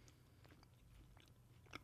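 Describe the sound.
Faint, crisp crunching of cheese puffs being bitten and chewed, a series of soft crackly crunches with one sharper bite near the end.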